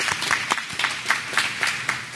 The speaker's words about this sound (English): That's worth clapping for.